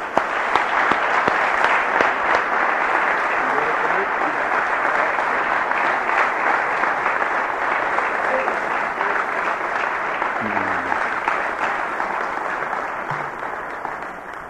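A church audience in the Dallas area applauds at length to welcome a guest minister. Loud, sustained clapping holds steady and eases off slightly near the end.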